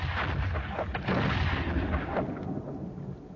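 Booming cannon fire from a shore battery aimed at a sailing ship, with a few dull rumbling reports rolling over a steady roar of noise.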